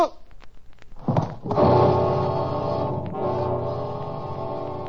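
A blow to the head in a ship's passageway lands as a couple of dull thumps, then a loud, sustained dramatic musical chord swells and holds to the end.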